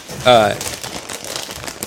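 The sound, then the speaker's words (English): A bag of chips crinkles in a run of crisp, irregular plastic rustles, moderately loud, right after a brief voice. “Those are chips. You're not fooling anybody. It's my folder. Sounds like a bag of chips.”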